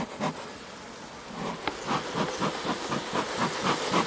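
A beekeeper's smoker puffs smoke into a hive in a quick, rhythmic run of soft, breathy hisses, faint at first, then repeating steadily.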